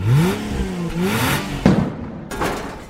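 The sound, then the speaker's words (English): A drag racing car's engine revs loudly in a few rising and falling surges, then a heavier burst follows before the sound thins out. “Strap on your high heels and put on your pads because we're going drag racing.”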